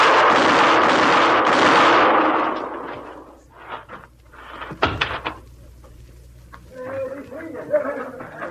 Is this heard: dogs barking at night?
no